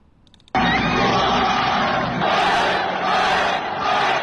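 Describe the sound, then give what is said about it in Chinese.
Football players and travelling fans cheer a 2-1 comeback away win over the league leaders: a loud, dense crowd roar erupts suddenly and holds steady, swelling in brief surges of higher-pitched shouting. “客场逆转击败领头羊上海上港，国安队的队员们和远征客场的球迷们纵情的欢呼。”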